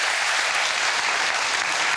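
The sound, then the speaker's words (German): Studio audience applause for the female winner of a prize draw: dense, loud, even clapping that holds steady for the whole two seconds, alone with no talk over it. “So, jetzt gibt es noch mal einen Applaus für die Gewinnerin”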